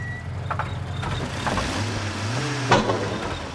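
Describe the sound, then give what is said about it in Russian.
A car brakes and comes to a stop at the curb: a low engine rumble with a drawn-out tonal whine that sinks as the vehicle slows, then a sharp brief knock near the end. “тормозит и останавливается у тротуара”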